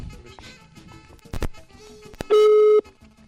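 Telephone ringback tone while waiting for someone to pick up, a single steady mid-pitched tone lasting about half a second, following several clicks and knocks over a busy background.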